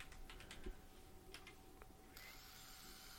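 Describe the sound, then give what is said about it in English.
Typing on a computer keyboard: a faint burst of quick, irregular keystroke clicks, a few more taps soon after, then a steady low hiss with no further keys. “I can't fucking type. Hang on, people.”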